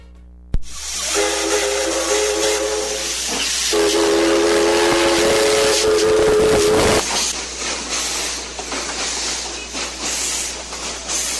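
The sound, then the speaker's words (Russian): A steam locomotive whistle sounds as a train crosses the Andes between Quito and Guayaquil in Ecuador. Two long, loud, steady harmonic blasts ring out over constant hissing and rumbling rail noise, and the clatter continues after the whistle stops. “А у нас опять, дорогие друзья, паровозный гудок.”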